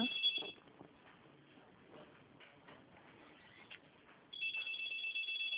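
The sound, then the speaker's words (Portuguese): A telephone rings in the background: a short high buzzing ring at the start, then a longer one at the end, separated by faint low noise. “Eu só consigo ouvir o telefone tocando no fundo.”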